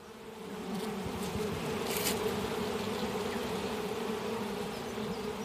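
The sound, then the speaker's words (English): Honeybees buzz around an open beehive at a beekeepers' club day, a steady, dense drone that holds at an even level throughout without pauses. “It's a club day for the Wellington Beekeepers Association, and about a dozen would be apiarists are getting an up close look at a hive, some of them for the very first time. These are drones”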